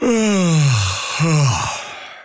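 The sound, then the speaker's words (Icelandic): A person yawns aloud: a long voiced moan that slides downward in pitch, then a shorter second falling moan, fading out at the end. “Ertu núna geispa?”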